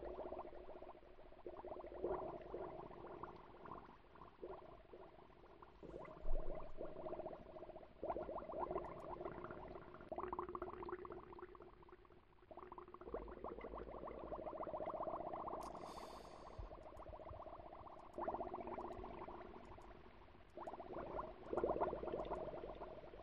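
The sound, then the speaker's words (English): Underwater bubble sound effects from a video game: a quiet, continuous gurgling and bubbling that swells and eases in waves, with no voices. “I will say that I find these underwater bubble sound effects less convincing than other sound effects in the game.”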